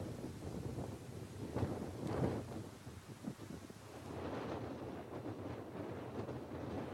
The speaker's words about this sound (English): This bloody wind.